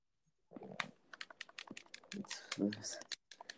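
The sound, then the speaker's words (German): Rapid clicking of typing on a computer keyboard, many quick, irregular keystrokes with short pauses, under a muffled voice. “Und du tippst sogar im Hintergrund.”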